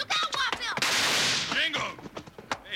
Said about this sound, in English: You almost shot me.